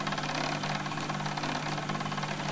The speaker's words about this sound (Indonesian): Oh, ini mesin jahit.